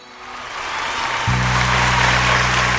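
Applause at a Punjabi religious gathering to thank the management team, swelling from soft to loud. A steady low droning tone joins partway through and holds under the clapping.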